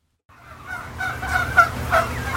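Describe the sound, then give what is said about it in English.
Turkeys gobble on a farm in Cannon Falls, Minnesota, where thousands of birds roam. Overlapping gobbles and warbling calls rise into a steady, busy chorus, with no talk over it. “there are thousands and thousands of turkeys roaming around his farm in Cannon Falls, Minnesota.”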